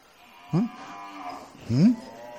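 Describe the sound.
A cow moos twice, each a short, low call that rises in pitch, separated by a pause with faint background sound.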